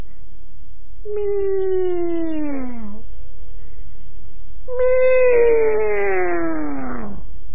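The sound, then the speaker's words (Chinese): A human voice imitates a cat meowing, giving two long drawn-out meows separated by a pause. Each meow starts fairly high and slides downward in pitch. “又学了几声猫叫”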